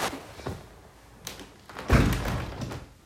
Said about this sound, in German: während Minecraft lädt, kann ich mal hier das Fenster zumachen.